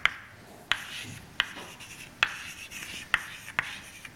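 Someone writes out mathematical equations. The writing is heard as six sharp little taps and faint scratchy strokes, spaced irregularly over a quiet background.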